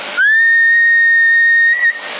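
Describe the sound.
Whistle blown into a CB radio microphone and carried over the transmission: a loud, steady high tone that slides up briefly at the start, holds for about a second and a half, then stops, leaving radio hiss.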